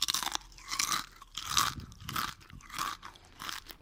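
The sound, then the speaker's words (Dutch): Crunching of crispy homemade chips made from thin oven-baked slices, heard as repeated crisp bites and chewing bursts separated by short pauses, with no voices. “Hoe dunner de plakjes, des te knapperiger de chips.”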